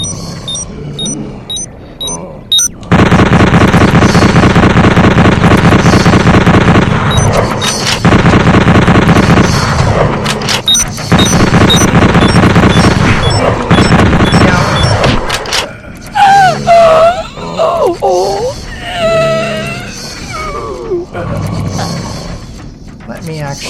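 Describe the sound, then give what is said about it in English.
Rapid automatic fire from a bolt gun in a video game: loud, dense bursts run for several seconds with brief breaks, then give way to quieter game sounds. “automatic bolt gun.”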